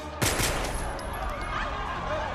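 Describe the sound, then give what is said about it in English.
A gunshot fired into the air inside Cincinnati Union Terminal: a sharp, loud crack near the start, then a low, lingering rumble that holds steady to the end. “Griffin points a gun skyward.”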